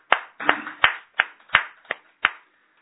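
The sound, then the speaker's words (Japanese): Hand clapping at a religious gathering celebrating the founder's 210th birth anniversary and a minister's 48th birthday: seven sharp, crisp claps in an even, unhurried rhythm, with no voices. “盛大な拍手でお祝いして”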